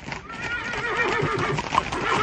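A horse neighs in a long, harmonic whinny whose pitch wavers and trembles, fairly loud and alone, with no talk over it.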